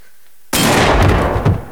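A single gunshot from a man's pistol in an audio drama, a sudden loud blast breaking silence and followed by a sustained roaring tail.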